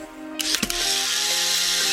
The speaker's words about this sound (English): It's the sound of the Polaroid SX70, of course. I think maybe that was an empty cartridge,